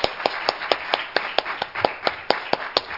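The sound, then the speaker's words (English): A church audience claps to welcome a family forward, sharp claps landing in a quick, steady, even rhythm, many in a row with no voices over them. “Let's give them a hand as they come.”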